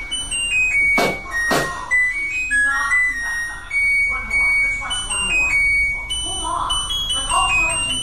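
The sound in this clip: A washing machine plays its end-of-cycle tune once the load is finished: a bright electronic melody of stepped beeping tones that runs through the whole clip, with TV voices murmuring in the background.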